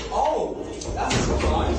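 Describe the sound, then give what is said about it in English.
A cubicle door quickly shut in a workplace, giving a dull thudding bang among voices talking. “So they quickly shut the door.”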